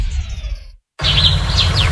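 Spring birdsong as bright, high chirps and quick rising tweets over a low murmur of background sound, heard after a brief silent gap that follows a short earlier passage.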